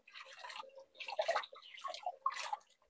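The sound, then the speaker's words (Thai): Something is being rinsed in water until the water runs clear, giving faint, irregular splashes and drips in a few loose clusters. “แล้วก็ล้างเขาจนกว่าน้ำเขาจะใสนะคะ”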